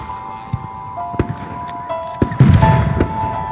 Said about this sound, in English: Why are you shooting?